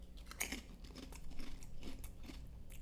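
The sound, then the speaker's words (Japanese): Crunchy chewing as spicy potato chips dipped in a homemade tofu mousse are eaten. There are several faint, crisp crunches with quiet gaps between bites. “さっき僕が作った ムース、 ムースにカラムーチョつけて食ってみていいですか。”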